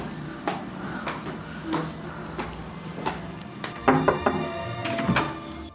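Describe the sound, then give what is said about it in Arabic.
A front door being opened, heard as a series of separate wooden thunks and knocks. The knocks come at uneven intervals and are moderately loud, with a denser cluster of clatter near the end. “فتحت لنا الباب وهيك لقيناها”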